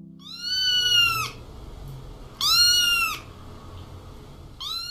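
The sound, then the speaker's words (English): A cat meowing: two drawn-out, clear, fairly loud meows separated by a pause, with a third starting at the end, over faint background noise. “If you said el gato, you are correct.”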